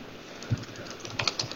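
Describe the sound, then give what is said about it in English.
Keys clatter on a computer keyboard in a few quick, light taps, with a small cluster of clicks near the end and a near-silent background. “I cannot type today either, on top of everything else.”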